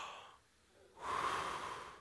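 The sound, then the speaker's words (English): A single deep breath, taken after a brief quiet pause, rises into a full, airy rush of air that holds steady for about a second. “Everyone take a deep breath.”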